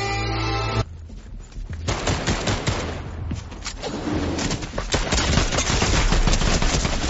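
Gunfire from a gun in a video game: rapid, dense bursts of loud, sharp shots, mostly continuous and growing heavier toward the end, with no talking.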